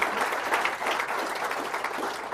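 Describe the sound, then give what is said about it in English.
An audience applauds a speaker after a talk. The clapping is a steady, dense wash that holds at an even level throughout, with no voices above it. “let's hear it for Howard Marks and sharing his insights.”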